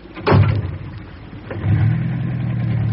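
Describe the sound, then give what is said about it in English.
A car engine starts with an ignition key, catching in a short burst, then settles into a low rumble that swells again as the car drives off. “Thank heaven, there's his car in the lane. Let's hope he's left the ignition key. He has, begod.”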